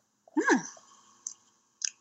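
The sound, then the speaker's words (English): Biting into a guacamole taco: a crunchy first bite, followed by two brief, softer chewing clicks with quiet pauses between them. “Okay, hold on, let me take a bite. It's gonna be a live taste test.”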